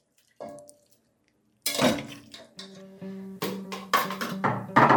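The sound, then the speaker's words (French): Cooked food is ladled into bowls, with a few clinks of ladle against bowl, scraping, and short ringing tones over quiet gaps, growing busier and louder toward the end. “C'est cuit, hein. On va mettre dans les bols.”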